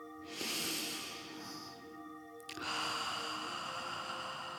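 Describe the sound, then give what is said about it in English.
A deep breath taken during a guided meditation, a long, soft, airy rush of breathing that fills the first half, then shifts into a fainter breathy sound, all over a steady sustained tonal background. “So let's come within. Take a nice big breath.”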